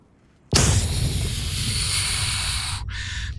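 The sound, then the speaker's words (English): An explosion sound effect for a body detonating erupts suddenly as a loud, full blast. It carries on as a sustained roaring rush that cuts off, and a shorter burst follows. “He detonates. And all of that energy is thrown in every direction.”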